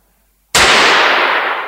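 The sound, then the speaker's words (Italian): A single pistol shot cracks out suddenly after a moment of silence, a loud, sharp blast whose noisy tail fades slowly over about a second. “La pistola m'hai puntato, eh? Ed un colpo m'hai sparato. Ah sì? Vabbè. Spara. Spara.”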